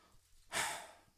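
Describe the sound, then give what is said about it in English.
A deliberate, audible breath taken by a preacher in the middle of a sermon: one breathy rush that starts abruptly, swells briefly, then tapers away, heard alone. “I'm putting that breath in because Jesus is taking a breath.”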